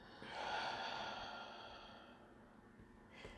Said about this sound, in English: One more time. Inhale deeply. Exhale slowly.